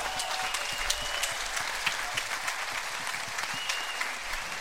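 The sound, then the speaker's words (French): Audience applause at a live evening show: a dense, steady wash of clapping that holds at an even level throughout, fairly faint, with no clear voices. “Applaudissez-nous.”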